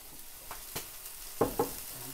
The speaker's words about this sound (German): Das kann man eigentlich so auf dem Grill tun und kann das so essen, ohne dass man würzen tut. Nach der Arbeit gibt es dann am Nachmittag Burger vom roten Höhenvieh für Freunde und Familie.